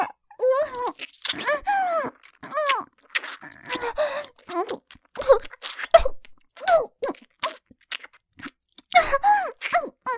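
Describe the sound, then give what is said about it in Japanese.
Crunchy, salty food is bitten and chewed, with many crisp crunching bursts in an uneven rhythm, mixed with breathy vocal moans and sighs. “あなたのこれ、食べちゃいたいです。いいですよね。パクってしますよ。”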